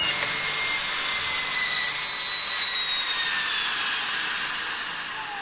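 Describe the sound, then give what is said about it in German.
A heat press run by a biotechnologist compresses a substance in a metal mould, giving off a loud, steady mechanical whirring rush with faint high whistling tones, easing slightly toward the end. “füllt der Biotechnologe die Substanz in eine Pressform aus Metall. Gut, dann setze ich das mal zusammen. Eine Heißpresse übt bei genau definierter Temperatur einen präzisen Druck aus.”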